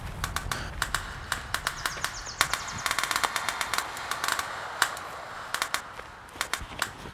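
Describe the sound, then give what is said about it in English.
Rifles fire during a shooting session in a forest: many sharp, crackling shots in irregular bursts, fairly faint overall, with some bird chirping alongside. “After a preliminary demonstration of safety features, the shooting began.”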